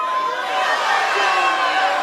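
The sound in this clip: Live comedy-show audience in Portland shouting replies all at once, a dense, steady wash of overlapping voices in which no single voice stands out.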